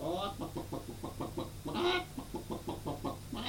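Hens and a rooster clucking in a henhouse: rapid, rhythmic clucks in a steady stream, with one louder, brighter call midway through.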